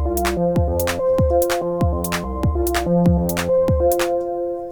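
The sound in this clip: Gated synthesizer sequence with drums and effects: a tight, repeating pattern of short chopped synth tones over punchy kicks whose pitch drops quickly, with bright high hits marking a steady, even pulse.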